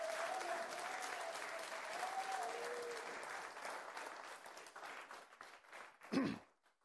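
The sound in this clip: A church audience applauds in a lively, sustained wave that holds steady for several seconds, then thins out and fades toward the end.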